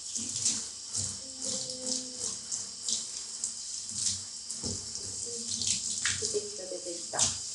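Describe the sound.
Warm water runs from a tap to wet hair, making a continuous splashing hiss with uneven surges. Faint clatters and soft knocks sound underneath, with no clear talk.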